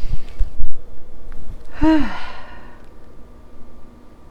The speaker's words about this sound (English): take a second and take a deep breath with me